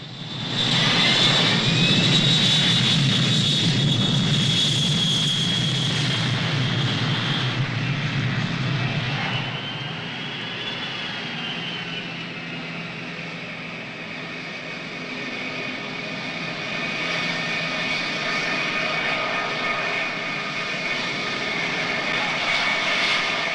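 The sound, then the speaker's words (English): Jet aircraft engines roar loudly as a queue of planes taxis toward the runway. A heavy, rumbling roar dominates the first several seconds, then eases into a steadier, high whine that holds to the end. “A queue of planes taxi towards the runway.”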